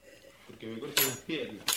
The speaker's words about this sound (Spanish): Dora recoge y limpia utensilios. repasa un vaso y lo apoya en la mesa, con firmeza.